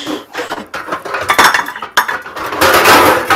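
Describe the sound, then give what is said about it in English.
Pots and pans bang and clatter as someone rummages for a pot. Many irregular metallic knocks and clinks overlap, growing denser and louder toward the end. “so, yep, you hear a lot of banging. I'm looking for my, actually, I prefer my pot for the green beans.”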